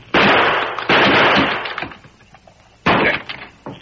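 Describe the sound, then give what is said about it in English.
Gunshots ring out in a drama standoff: three loud, sharp cracks, each trailing into a rough, ringing decay. A longer pause comes before the third shot. “I'm shooting off this lot! Stand aside!”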